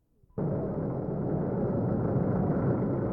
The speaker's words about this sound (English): Behind the wheel of that bulldozer is Mayor Washington, wearing a bright red hard hat, officially starting construction on the center.